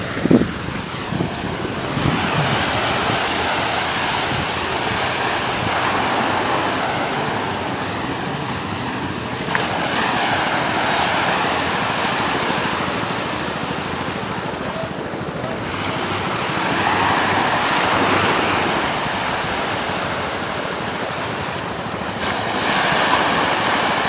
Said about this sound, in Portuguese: a maré tá enchendo. Daqui a pouquinho vai poder dar um... Eu vou poder dar um mergulho. Escutem aí.